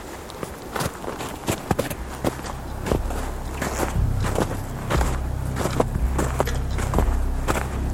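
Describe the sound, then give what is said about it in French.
Footsteps of someone walking through a wintry place, a steady series of crunching steps that continues throughout, with a low rumbling undertone joining partway through. “Vous marchez et vous écoutez le royaume de l'hiver.”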